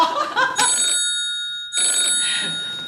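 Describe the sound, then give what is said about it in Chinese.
A telephone ringing in two long bursts separated by a stretch of silence, each ring a loud, bright, steady electronic tone with a buzzing edge. “喂，闺女，给我打电话什么事儿啊？”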